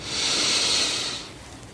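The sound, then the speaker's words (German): One long, deep inhaled breath, a loud airy hiss lasting about a second before tapering off into quiet, with no talk. “Wir nehmen gemeinsam einen tiefen Atemzug und atmen ein”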